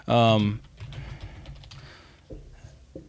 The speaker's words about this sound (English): I typed in patching, but that's okay.